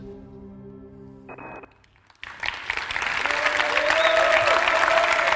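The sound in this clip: Audience applause welcoming a speaker breaks out after a short sustained musical tone fades, then swells into steady, dense clapping that continues to the end.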